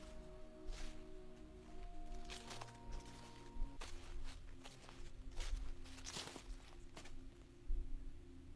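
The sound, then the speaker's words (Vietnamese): Footsteps rustle across roof tiles: several soft, scattered crunching steps, faint against a low steady hum, with no talk. “Tôi lại nghe tiếng bước chân. Là tiếng bước chân giấy sột soạt ở trên mái ngói.”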